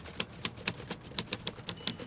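Keys struck on a typewriter produce a steady run of about ten crisp, fairly quiet clicks at an even pace, with no voices.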